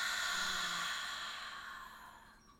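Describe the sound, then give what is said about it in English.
A deep breath released in a long, soft exhale, a faint breathy rush that holds steady and then tapers away over about two seconds, heard alone without talk. “Take one more nice, really beautiful deep breath in. And release.”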